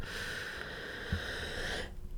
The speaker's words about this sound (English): So I'm going to take a deep breath for myself.